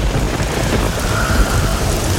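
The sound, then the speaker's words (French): A thunderstorm with heavy, steady rain hissing down and deep thunder rumbling underneath. The sound is loud and continuous, with no pauses for the whole clip. “À peine arriva-t-il à la chaumière de Yé que le tonnerre en fit trembler les murs.”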